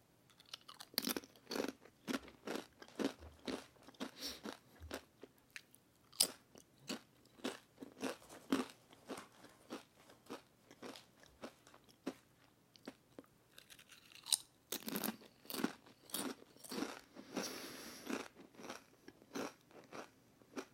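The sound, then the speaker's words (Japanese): Crunching and chewing of Don Tacos corn chips: many sharp, crisp bites and chews in an uneven rhythm, loud and clear with no talking. “どんたこス食べよう”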